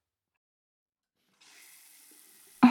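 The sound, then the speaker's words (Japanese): Warm water from a tap pours over hair as shampoo is rinsed out. Near silence gives way to a faint hiss, then a sudden loud gush of running water continues to the end. “シャンプー、お湯で流しちゃいますね。”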